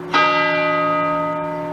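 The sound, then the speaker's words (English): A gong struck once after a name is read aloud, giving a bright metallic strike that blooms into a steady, rich ringing tone and fades only slowly over nearly two seconds. “This gong rings out. It is the most fucking Kmart shit, dude.”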